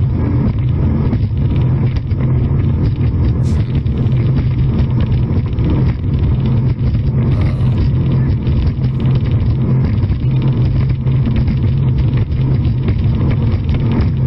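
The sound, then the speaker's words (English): A vehicle engine roars loudly and steadily under heavy wind buffeting, a dense low rumble that holds at a constant level throughout. “He does throttle down. He's throttling down a little bit. Not enough. No, back now.”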